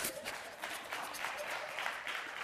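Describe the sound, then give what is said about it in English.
Audience clapping for a cake baker, faint and steady applause from a crowd of many hands that carries on without a break. “Come on, clap for Yolanda.”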